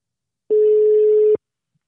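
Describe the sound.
A ringing tone on an outgoing telephone call: a single steady, clean mid-pitched beep lasting almost a second, starting and stopping abruptly. It is loud and alone, with silence on either side.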